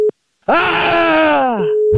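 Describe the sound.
Telephone busy tone after a call is cut off: short bursts of a steady mid-pitched tone, with a long groaning voice between them whose pitch slides downward.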